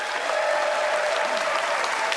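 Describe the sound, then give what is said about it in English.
Audience applause votes for a contestant's argument in favor of dressing up pets: dense, steady clapping that holds at an even level throughout, with no talk over it. “it's up to the audience to decide by applause who loved how Kathleen fashioned her argument in favor of dressing up your pets.”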